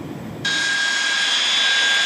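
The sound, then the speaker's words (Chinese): Two J-11B fighter jets taxi toward the runway with a loud, steady jet-engine roar, and a piercing high whine cuts in sharply about half a second in and holds to the end. “伴随着巨大的引擎轰鸣，两架歼-11B战机依次滑向起飞跑道。”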